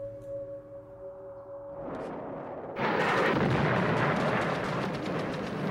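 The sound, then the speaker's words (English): Heavy bombardment hits Baghdad at night. A quieter, tonal opening gives way after a few seconds to a loud, dense roar of rumbling blasts and crackling impacts that continues to the end. “Baghdad tonight, under heavy bombardment on the day the war started.”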